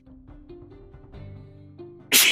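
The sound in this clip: A sneeze erupts at the very end as one loud, sharp, explosive burst, coming after a stretch of quieter voiced sounds.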